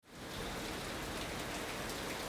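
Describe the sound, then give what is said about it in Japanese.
Heavy rain pours down without letup on a station plaza where water is pooling: a dense, steady hiss of countless drops hitting the ground. It stays loud and continuous throughout, with no pauses and no voices. “豪雨は容赦なく降り続き、金沢駅東口広場はまるで沈みゆく盆地のように水が溜まり始めていた。”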